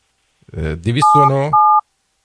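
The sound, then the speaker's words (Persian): A telephone number is dialed: a voice speaks, then two short touch-tone keypad beeps sound, the first overlapping the talk. “داره شماره میگیره.”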